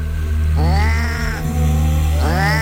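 Cats yowl in two long, drawn-out wails that rise in pitch, separated by a short pause and set over a steady low drone.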